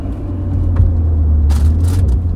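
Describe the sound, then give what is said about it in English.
Car driving down the road, heard as a steady, low rumbling drone of road and engine noise that continues throughout, with faint brief hiss bursts near the end and no voices. “I'm literally driving down the road right now.”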